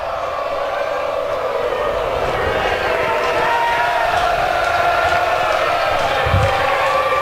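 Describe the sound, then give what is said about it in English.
A ballpark crowd cheers at a baseball game with two outs and runners on every base, a loud, steady roar of many voices that holds at an even level from start to finish. “And right now it sounds like a FSU home game here in this ballpark.”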